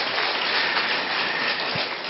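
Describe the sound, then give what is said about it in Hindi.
Loud, dense clapping from an audience welcoming a respected guest, an unbroken, even roar of applause that holds at full strength for the whole stretch. “तो जोरदार तालियों की गड़गड़ाहट से हम आदरणीय भ्राता जी का अभिनंदन करते हैं, स्वागत करते हैं।”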